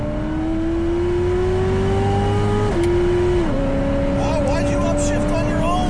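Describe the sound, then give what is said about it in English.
Chevrolet Corvette with a manual gearbox accelerating hard in third gear, a loud, sustained engine drone climbing gradually in pitch, dipping briefly twice partway through before pulling on. “It's just a crazy fast Corvette. Watch this. Third gear.”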